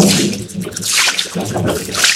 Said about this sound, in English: Oh, what a sorry sight. There's a river right through the tent.